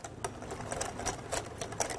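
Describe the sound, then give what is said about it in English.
A whisk beats pancake batter made with cold water, producing a steady stream of quick, faint, rhythmic ticks and clicks against the bowl. “So we're gonna whisk this together and make sure there's no lumps. So you wanna give it a nice good whisk.”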